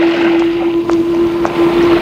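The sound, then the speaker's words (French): Water with rattling chains: a steady low drone and wash of water run beneath faint, evenly spaced metallic clinks, about four across the stretch. “Il entend le bruit de l'eau et le bruit des chaînes.”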